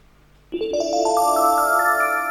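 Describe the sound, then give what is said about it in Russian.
An electronic telephone ringtone signals an incoming call on a radio phone-in show, a loud, steady run of bright beeping tones stepping upward in pitch, heard alone. “У нас просто второй звонок сразу, может быть, мы примем”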